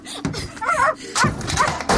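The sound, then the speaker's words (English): A small dog yips and barks excitedly while playing fetch with a ball thrown against a house, giving a few short, high bursts in an uneven rhythm. “Now bring it back here. There's a good dog.”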